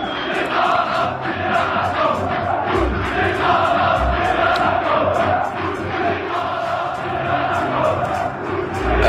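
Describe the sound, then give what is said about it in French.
Football supporters chant together in Hamadi stadium in Algiers, a dense, loud crowd roar with rhythmic pulses running steadily through it. “Alors, faut quand même expliquer que ça se passe dans un stade d'Alger. C'est le stade Hamadi. C'était le 13 février dernier. Et les supporters chantent Bouteflika Rabiya Rahmous”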